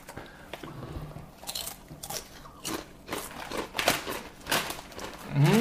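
Honey barbecue potato chips crunching as someone bites and chews them: many crisp, sharp crunches in an irregular rhythm, moderately loud, with no talking.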